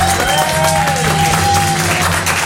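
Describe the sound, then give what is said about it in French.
Audience applause greets a game-show host introduced on a morning radio programme: dense, steady clapping fills the whole clip at an even, fairly loud level with no clear breaks. “Je vous prie, s'il vous plaît, d'applaudir Jean-Pierre Foucault.”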